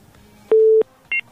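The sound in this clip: Telephone tone as a call is cut off: one loud, steady beep of about a third of a second, then after a pause a shorter, higher beep. Nothing else is heard.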